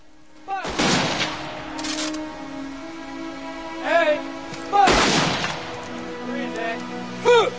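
A rifle volley fires at a military funeral in a rainy military cemetery: several sharp, loud cracks at uneven intervals, two of them especially heavy, with ringing tones and other sound between the shots.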